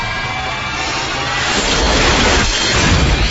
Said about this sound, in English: Missile away, sir.